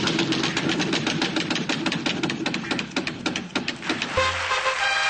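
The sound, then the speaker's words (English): A prize wheel spins with a rapid run of sharp ticking clicks that gradually space out. A short tonal buzz sounds as it comes to rest. “Spin that wheel. All right, here we go.”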